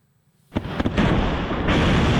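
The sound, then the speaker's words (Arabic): Explosions from missile and drone strikes in Kyiv: after near silence a few sharp booms burst out, followed by a loud, sustained roaring rumble that lasts to the end. “دوي انفجارات تهز العاصمة من منطقة هولوسيفسكي إلى بلدة فيشنيف”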